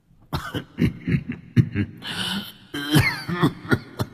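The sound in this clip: An old man coughs in a long, ragged fit while choking on incense smoke: many rough, uneven coughing bursts and throat clearing with short gasps between them, loud throughout and performed by a voice.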